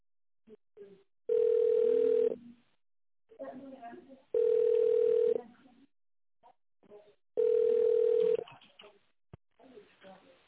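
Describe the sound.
Telephone line tones sound during a call transfer: three loud, steady, mid-pitched tones, each about a second long, separated by stretches of quieter voices talking.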